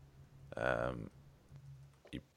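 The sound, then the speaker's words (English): A computer keyboard clacks during typing, with faint scattered clicks in the background and a short burst of voice over them. “You can hear the clack of my keyboard in the background as I look up who Malang Sarr is.”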